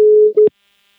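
Telephone call tone while phoning someone: a steady mid-pitched electronic tone, then a brief break and a shorter second tone that cuts off with a click, followed by silence.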